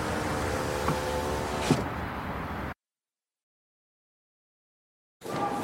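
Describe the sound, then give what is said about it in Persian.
A car's power window rolls up with a steady whirring motor hum and a brief click near the end. The hum cuts off abruptly into silence before low noise returns. “شیشه ماشین رو میزنه بالا.”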